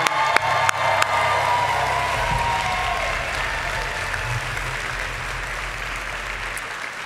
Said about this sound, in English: Can we give it up for him one more time?